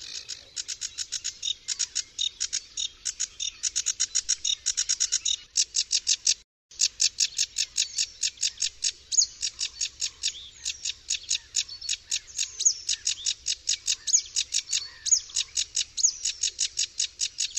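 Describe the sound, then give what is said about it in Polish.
A sedge warbler sings a lively, high-pitched song of rapid chattering phrases that pour out almost without a break, with only one brief pause early on, and no other sounds. “A teraz posłuchajmy bardzo podobnego, ale dużo żwawszego śpiewu samej rokitniczki.”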